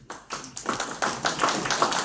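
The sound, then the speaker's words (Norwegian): An audience at a Christian gathering applauds. Scattered claps start softly and build into denser, moderately loud clapping that continues to the end. “Vi kjører til en klapp, kom.”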